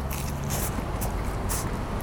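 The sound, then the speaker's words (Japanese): Crisp crunching as teeth bite into a plump, thick fried shrimp: a few short, dry crunches land at fairly even intervals over a soft, steady chewing background. “でもちょっと結構ね丸々と太めのエビフライなんでつい手が伸びちゃいました。いきますよ、”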